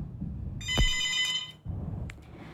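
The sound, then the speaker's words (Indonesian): A telephone rings with an incoming call at a radio station: one bright electronic ring lasting about a second, followed by a brief short tone, over a low background hum. “sudah ada satu telepon yang masuk ya. Mari kita angkat dulu.”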